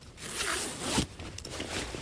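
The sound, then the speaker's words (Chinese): Luggage being unpacked: a long, fairly loud zipper-like rasp in two drawn-out pulls, then shorter scraping and rustling. No voices. “开始拆箱。”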